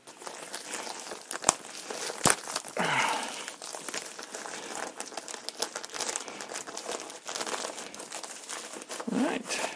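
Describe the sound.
Wrapping crinkles as a tightly sealed package is opened, a continuous dry rustle with a couple of sharp snaps early on and scattered crackles, moderately quiet throughout.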